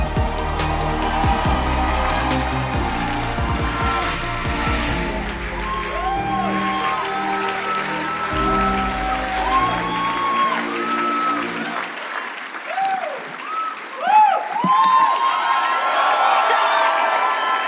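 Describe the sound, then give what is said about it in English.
Applause and cheering from an audience giving a standing ovation to a welcomed guest, a loud, steady roar of clapping with whoops and shouts running through the whole clip. “Ladies and gentlemen, with a rousing ovation, please make welcome Dr. Helen Paul.”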